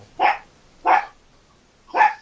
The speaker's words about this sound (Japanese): ワンコも吠えてますわ、今、もう。